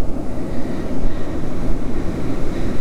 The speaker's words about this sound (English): And I think I'm going to have a problem with the wind today.